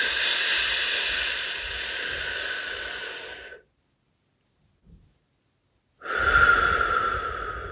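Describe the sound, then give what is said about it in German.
Air is drawn in through pursed lips as a breathy, hissing inhale lasting several seconds. After a stretch of silence, a second hissing breath begins. “schau mal, ob du beim Einatmen deinen Mund, deinen Mund leicht spitzen kannst, dass du die Luft reinziehst”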